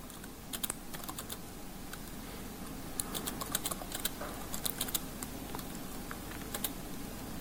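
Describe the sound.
Keys clicking as someone types code on a computer keyboard: many quick, light taps in irregular bursts with short pauses, faint and alone, without talk.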